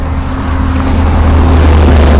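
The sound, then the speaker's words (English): Road traffic gives a steady, loud, low engine drone that swells slightly over its short span, with no voices. “recording the traffic”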